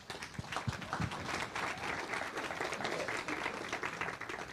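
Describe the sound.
Applause greets a speaker at Redeeming Love Church, a soft, sustained rush of many clapping hands with a few sharper claps at the start, continuing evenly throughout.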